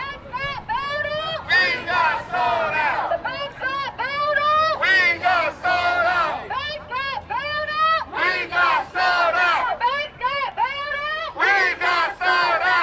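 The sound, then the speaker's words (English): A crowd of over 200 men, women and children protests outside a bank in downtown Los Angeles, their loud chanting and shouting rising and falling in rhythmic bursts that continue without break. “That's the sound of over 200 men, women, and children protesting outside of Bank of America in downtown Los Angeles.”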